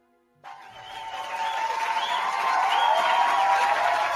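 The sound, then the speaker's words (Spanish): Crowd applause with cheering that bursts in suddenly after a moment of silence and swells steadily louder, a thick wash of sound held to the end. “Después discutimos si está bien o está mal tirar aplausos por estas regradas.”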